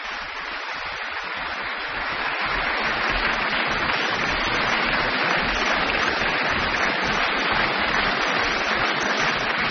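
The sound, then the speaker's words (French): Concert audience applauding after a chamber music performance by two French musicians, calling the performers back: dense, steady applause with no break, growing a little fuller after the first couple of seconds and then holding loud and even. “Voilà, le public qui les rappelle, peut-être pour un deuxième moment.”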